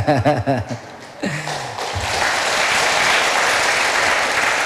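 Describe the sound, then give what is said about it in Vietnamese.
Many children clapping at a temple gathering. The applause swells after a short spoken exchange and continues as a steady, even patter to the end. “Đúng hôn mà vỗ tay vậy?”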